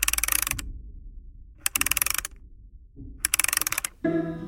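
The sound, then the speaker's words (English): Ratcheting clicks come from a wind-up key being turned on a platform in a video game: three bursts of rapid, crisp clicks separated by short pauses, followed at the end by a sustained tonal sound. “This platform's got a wind-up key, like a music box.”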